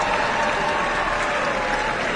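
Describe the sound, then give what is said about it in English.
Audience applause after a trumpet solo at a community concert: dense, sustained clapping at a constant loud level, with no gaps and no voices. “And the trumpet solo performed by local musician Thomas Eves. Keep the applause going.”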